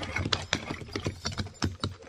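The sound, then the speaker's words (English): Hooves of a horse team pulling a wagon down a road clatter in a steady, uneven run of many clops, fairly quiet throughout. “Listen. That's a team and wagon. Yeah, it's heading right down the road”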